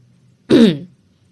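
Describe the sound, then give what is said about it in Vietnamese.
A man clears his throat once in a short, gruff burst, heard alone over a faint low hum. “Ông ta hắng giọng hơi quay mặt đi”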